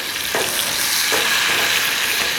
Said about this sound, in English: But at the end of the day, still gonna cook. I'm still gonna be happy with my bacon. So it's still cooking.